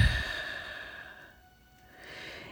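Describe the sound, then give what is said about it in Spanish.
A slow exhale during a guided breathing exercise: a soft, airy outflow of breath that eases off gradually over a couple of seconds, faint and without any speech. “Vamos a inhalar, vamos a exhalar”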